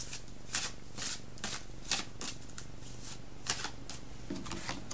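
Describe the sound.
A tarot card is drawn from the deck, heard as a faint run of many quick papery rustles and flicks over a steady low hum, with no voices.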